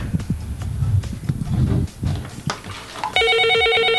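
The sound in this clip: A telephone rings with an incoming call, a bright pulsing electronic trill in the final second. It follows a stretch of uneven, hoof-like clopping and knocking sounds.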